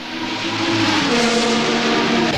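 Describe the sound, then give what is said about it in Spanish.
A racing car engine revving loudly and continuously in a dense, steady drone, its pitch edging slightly upward partway through, with no talk. “La bandera sigue en verde. No aflojes. Continúa ADN Motor. Seguimos acelerando.”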